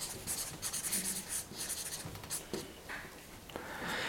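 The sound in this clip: Handwriting, heard as many quick, dry scratching strokes in short uneven bursts, faint and alone with no talk, as figures are jotted down during a breath-holding training session.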